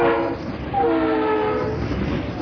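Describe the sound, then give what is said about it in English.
A train moves swiftly past with a loud, steady rumble and a sustained horn-like tone that drops in pitch as the train passes. “That was a train moving swiftly past us.”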